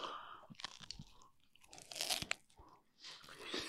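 Crisp crunching of a bite into a strawberry coated in real chocolate, then chewing: a few sharp crunches and softer mouth sounds at moderate loudness, with no talk.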